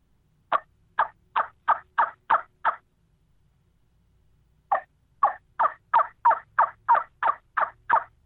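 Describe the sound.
Turkey yelps played on a trumpet caller, with the free hand cupped over the end as a sound chamber for a louder, deeper tone. Two quick, evenly spaced runs of raspy yelps are heard, the second longer, with a short silence between.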